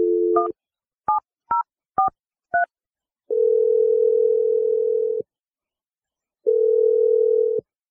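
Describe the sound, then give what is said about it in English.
Touch-tone keypad beeps as a telephone number is dialed: a few short, evenly spaced dual-tone presses, then two long, steady ringing tones separated by a pause. No voices. “All right, here we go. I'm going to dial his number right now.”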